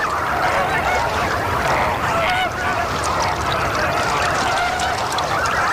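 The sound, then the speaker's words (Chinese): Red-crowned cranes calling, an adult among a crowd of its chicks: a dense, unbroken chorus of honking, trumpeting cries that overlap at steady loudness throughout. “一只大红冠成鸟在幼鸟群中寻找它心爱的孩子，”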